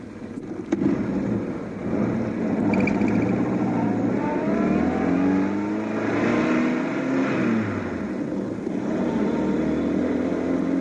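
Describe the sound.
A car drives off and accelerates. The engine gives a steady low rumble, and its note climbs in pitch several times as the car picks up speed, staying loud throughout.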